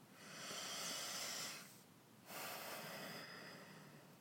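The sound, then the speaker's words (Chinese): A slow, deep breath taken alone, heard as two long, airy, hissing breath sounds separated by a short pause. Soft and steady, with no talk. “因此，深呼吸一口气。”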